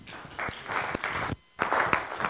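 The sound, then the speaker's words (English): An audience applauds to welcome a speaker at a library talk, with dense clapping that briefly drops away midway and then resumes just as strongly. “So let's give Brett Adams a warm welcome.”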